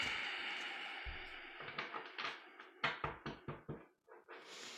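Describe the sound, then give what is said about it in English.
Shuffling of a tarot deck: faint papery riffles and slaps build into a quick series of short bursts, then trail off, with no other sound. “I'm going to do one more shuffle.”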